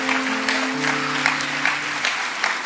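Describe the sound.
Applause from the audience at an evangelistic miracle healing campaign in Nicaragua: dense, steady clapping that fills the whole clip, with a low sustained tone underneath.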